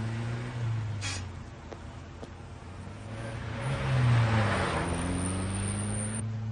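A four-cylinder car drives along and takes corners, its engine a steady low hum whose pitch gently wavers. The sound swells briefly to a louder surge near the middle before settling back.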